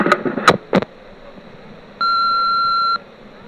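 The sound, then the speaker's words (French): An answering machine beep: one steady, high electronic tone lasting about a second, after a few brief, sharp bursts of noise. “quelle surprise, c'est un répondeur maintenant, mais qu'est-ce que c'est chic tout ça”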